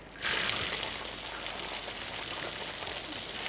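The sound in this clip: Water flowing from a pipe fed by a reservoir above: after a brief silence it starts abruptly and continues as a steady, fairly faint rushing hiss.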